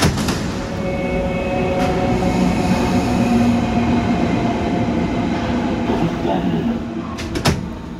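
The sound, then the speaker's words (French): Trains at a Berlin railway station entrance, a former walled-off ghost station: steady, loud rolling rumble of rail cars with faint clatter, indistinct voices mixed in, easing slightly near the end. “Voilà cette entrée de la gare, là où les gens entrent.”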